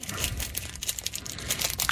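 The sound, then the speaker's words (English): A crinkly snack bag of Mexican spice crickets rustles and crackles as someone struggles to open it, with dense, uneven crinkling bursts throughout. “Pop it right open. Unfortunately, this one doesn't want to open. Just use your teeth and bite it. I can't rip it open.”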